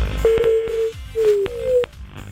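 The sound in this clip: Ringback tone of an outgoing telephone call: two steady, mid-pitched ringing bursts with a short pause between them, fairly loud and alone.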